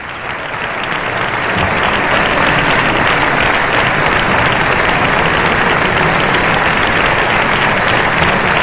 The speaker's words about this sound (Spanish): Estos aplausos suelen ser largos. Es muy común en estos protocolos.